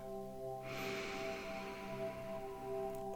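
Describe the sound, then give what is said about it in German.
A deep breath drawn in through the nose during a guided meditation ritual: a soft, breathy rush that swells and then eases over a couple of seconds, above a steady, sustained tonal drone. “Und noch einmal tief durch deine Nase einatmen.”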